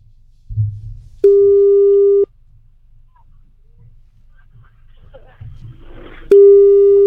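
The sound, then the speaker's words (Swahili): A telephone busy signal on an unanswered call: two long, steady, mid-pitched tones of about a second each. A quiet gap with faint low rumbles separates them, and the second tone is cut off at the end. “Mbona hashiki simu?”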